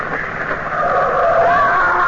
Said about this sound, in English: Come on, watch out. There's a car coming.